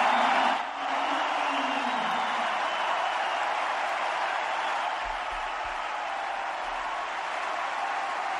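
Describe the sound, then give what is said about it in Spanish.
Tennis crowd in Madrid applauding Rafael Nadal's farewell, a dense, steady wash of clapping that holds evenly for several seconds. “Pero la ascendencia del manacorí es evidente, y más en Madrid. Y por ello el público hoy le ha despedido así.”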